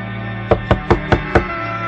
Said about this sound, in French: Quand il y arrive, il frappe à la porte,